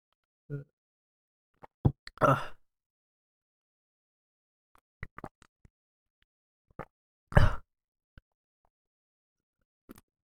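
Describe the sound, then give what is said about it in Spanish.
Someone drinking from a glass of water: a few short, scattered plops and clicks separated by silence, with no talking. “te voy a tomar un vasito de agua porque siento que necesito”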